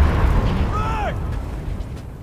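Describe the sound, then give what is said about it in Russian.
A fighter's pilot capsule explodes in flames on sand after a crash, a deep, continuous rumbling roar with a short whine that falls in pitch partway through, then the roar slowly fades. “Пилотская капсула катится по песку и взрывается огненным фейерверком.”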